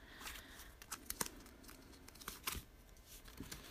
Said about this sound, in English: I'm going to pull it out and see what the next guidance is going to be. You can hear the cards.